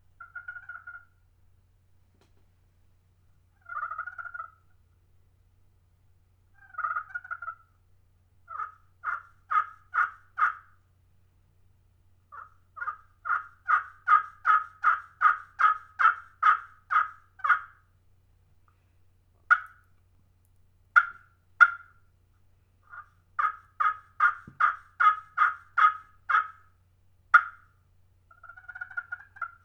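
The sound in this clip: Yelps and clucks from a turkey call played on its slate surface come in a long series of short, raspy notes, some spaced apart and others in quick runs, with no talk.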